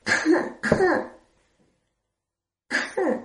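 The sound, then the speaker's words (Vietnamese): Coughing in a short, throaty pattern: two quick voiced bursts, a pause of over a second, then two more, all fairly loud with no other sound between. “Mạch Khiết ho một tiếng, gõ gõ bàn”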